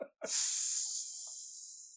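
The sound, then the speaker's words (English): A person hisses quietly, a steady breathy hiss that starts abruptly and holds for under two seconds while gradually fading. “I just kind of hissed quietly for no reason.”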